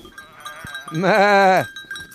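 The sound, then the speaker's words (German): A single sheep bleats on a farm, a wavering, nasal bleat lasting about half a second. It rises out of a quiet background as the sheep is called over with bread. “Das sind die pavlovschen Schafe, sozusagen.”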